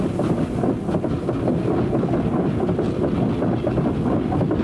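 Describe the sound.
A train passing at a railway station gives a loud, steady low rumble with wind-like noise and faint rattling that holds evenly throughout, with no voices.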